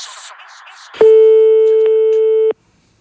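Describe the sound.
After a caller hangs up, a telephone line gives a single long, steady electronic tone lasting about a second and a half, loud and flat in pitch, following faint talk and ending in silence.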